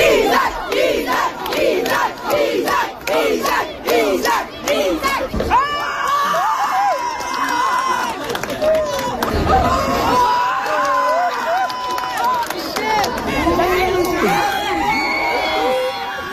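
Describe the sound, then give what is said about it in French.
Children in an Estrie schoolyard shout and scream during a rat battle, a dense, loud chorus of yells and whoops with rhythmic bursts early on, continuing without pause. “ce qu'on entend ici, c'est l'extrait d'une bataille de rats survenue dans une cour d'école en Estrie plus tôt cette semaine.”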